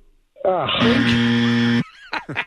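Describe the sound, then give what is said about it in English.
A groan sound effect after a wrong answer in a sports trivia quiz: a low, falling vocal groan runs into a loud, steady buzzing drone about a second long, followed by two short vocal bursts. “I like the groan. The groan's always pretty good.”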